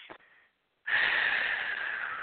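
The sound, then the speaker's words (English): A deep breath: a short sniff in through the nose, a brief pause, then a long, loud exhale out through the mouth as a steady breathy hiss that fades only slightly toward the end. “And he wants you to take a big breath in through your nose, out through your mouth.”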